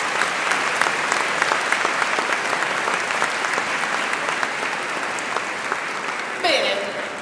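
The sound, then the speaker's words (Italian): Audience applause at a choir festival: dense, sustained clapping from a crowd, holding a fairly steady level for several seconds before easing slightly at the end. “per questo credo meritino tutti un applauso, poi glielo rifacciamo, insomma.”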